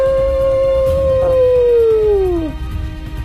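A wolf howls once: a long, sustained, clear tone that holds steady, then slides downward in pitch and fades out, over a low rumbling background.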